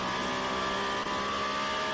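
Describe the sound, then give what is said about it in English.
Race cars roar in a Peugeot and Toyota battle on a racing circuit, a steady, dense engine drone with tonal whine that holds at a constant level throughout, with no voices. “Peugeot Toyota battle going on at the Varianda Alderling, very top of the circuit there.”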